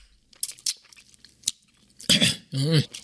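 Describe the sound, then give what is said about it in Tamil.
Soft crunching bites and chewing of freshly picked karakkai fruit, sour and slightly crunchy, with a few quiet crisp crunches followed by two louder voiced murmurs from the eater. “அதனாலதான்ப்பா நான் பறிச்சுட்டு வந்திருக்கேன், சாப்பிடு சாப்பிடு காரக்காயா.”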